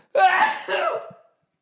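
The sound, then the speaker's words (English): A single human sneeze, a short, breathy, voiced burst with a two-part shape lasting about a second, alone. “I'm going to sneeze.”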